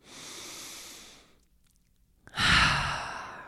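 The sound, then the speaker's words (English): One slow, deep breath: a soft, airy inhale, a short pause, then a fuller, louder exhale like a sigh, quiet and alone. “So let's take another deep breath.”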